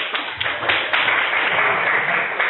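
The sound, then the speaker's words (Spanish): Applause from a group listening to a history talk, a dull, muffled patter of clapping with a few sharper individual claps standing out over a steady wash. “Muy bien, un aplauso.”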